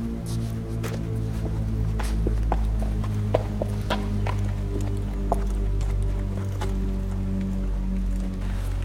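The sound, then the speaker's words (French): Hooves of a horse passing near an equestrian centre clop in a brisk, uneven series of many sharp clicks over a loud, steady low hum. “on vient de voir passer un cheval.”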